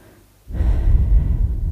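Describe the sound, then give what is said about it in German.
A single deep breath taken at the start of a guided meditation, sitting upright and relaxed: a soft, low, airy rush begins after a short quiet pause and continues steadily to the end, with no talking. “Nimm einen tiefen Atemzug.”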